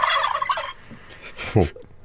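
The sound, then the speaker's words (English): Large farm-raised turkeys gobble: a loud, rapid, warbling burst at the start, then a few shorter, softer calls and a low throaty gobble near the end. “Two large turkeys raised on the Jackson farm in North Carolina took over the White House lawn today in the annual turkey pardon.”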